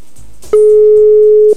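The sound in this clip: Ringback tone of an outgoing telephone call: one steady, loud, mid-pitched tone lasting about a second, starting abruptly after a quiet stretch of faint background sound.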